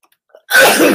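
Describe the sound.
A single sudden sneeze from allergies bursts out loudly after near silence and holds briefly as a breathy rush.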